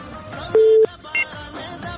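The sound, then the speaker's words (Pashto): Telephone line tones sound as a call is connected: a loud, steady electronic tone holds for about a third of a second, then a brief, higher beep follows. “د ټلیفون کرښې ته لومړنۍ اړیکې ته اړیکه به واخلو”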